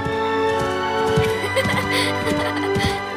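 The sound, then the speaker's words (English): A black stallion gallops up a hillside with a bareback rider, its hoofbeats falling in a quick, irregular rhythm of thuds. “She steps up on a rock, then hoists herself onto the stallion's back. Now, Neera rides bareback as Black gallops up the hill.”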